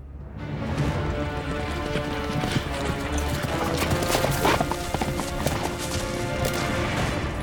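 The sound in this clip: Galloping hooves of a centaur, a rapid, dense, irregular clatter of hoofbeats that is loud and steady throughout, with occasional sharper impacts and no voices.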